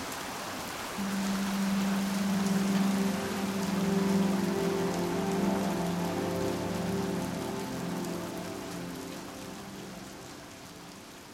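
Rain falls in the desert among creosote bushes: a steady, even hiss of countless drops that swells slightly and then eases, with a faint low tonal hum running underneath.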